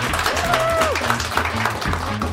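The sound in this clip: Applause from a magic show audience for a volunteer, a continuous patter of many hands clapping with a voice talking over it.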